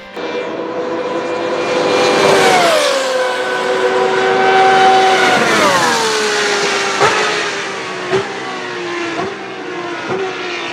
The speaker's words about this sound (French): Panos conçut la DP09, une monoplace munie d'un moteur Maynard V12 4.2 litres. D'ailleurs, voici le son de ce moteur.